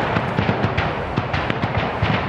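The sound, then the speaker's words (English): Gunfire traded in residential streets, many sharp cracking shots in rapid, irregular volleys over a continuous rumbling roar, loud and without pauses or voices. “Volleys of gunfire were being traded in residential streets, civilians running desperately for safety.”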